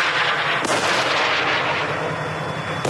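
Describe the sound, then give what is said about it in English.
Rocket fire from a war video in the Gaza Strip: a continuous, heavy roar of blasts with a couple of sharp, booming onsets standing out from the rumble. “The videos include rocket fire and armored bulldozers operating in the Gaza Strip.”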